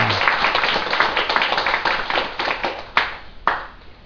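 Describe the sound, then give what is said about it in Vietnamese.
An audience at a Buddhist dharma talk gives a brisk round of clapping. The applause thins out toward the end and finishes with a couple of isolated, sharper claps. “Xin quý vị vỗ tay một tràng.”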